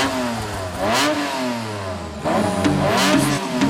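A car engine revs in two surges, its pitch climbing and dropping back each time, with a steady mechanical whir between the bursts.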